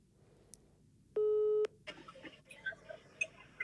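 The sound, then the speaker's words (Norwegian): A telephone ringing tone sounds as a call is placed: one steady electronic tone lasting about half a second, followed by faint clicks and soft line noise. “Så jeg tenkte jeg må bare ringe henne. Håper hun tar den.”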